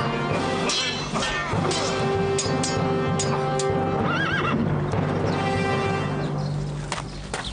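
A horse whinnies and neighs loudly among clip-clopping hooves as a rider mounts for battle; the steady hoof beats run throughout, with a shrill, wavering neigh standing out near the middle.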